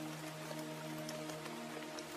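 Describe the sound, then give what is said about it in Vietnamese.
Rain falling steadily, faint, with scattered drop patters over a constant wash and a low steady hum beneath. “vì bây giờ trời mưa cũng đang dần nặng hạt.”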